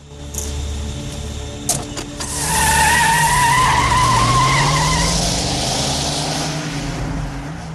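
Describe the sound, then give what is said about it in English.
A Mercury car drives off: after a few brief knocks, its engine roar swells into a loud, sustained drive-away with a whining, squealing edge, then holds steady. “He gets in the Mercury and drives off.”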